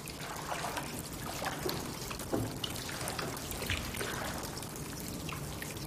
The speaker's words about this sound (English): The man gets to his feet and staggers away from the bench, wading through the shallow water.